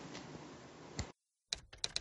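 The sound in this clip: Typing on a computer keyboard: a stretch of busy clicking noise, then a short pause, then a few sharp, quick key clicks.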